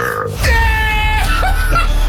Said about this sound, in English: Rip your loudest burp.